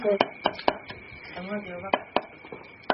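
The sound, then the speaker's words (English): A knife finely chopping ginger on a board gives several sharp, dry knocks in uneven bursts, mixed with a person talking. “Just finely chop it. My grandmother would always peel it, and the Chinese believe that when you peel ginger, it becomes more heat-giving property”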